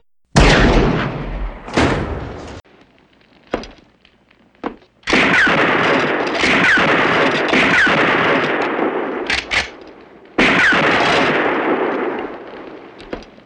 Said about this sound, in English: Good shooting. Very good shooting. When you want to kill a man, you must shoot for his heart, and the Winchester is the best weapon.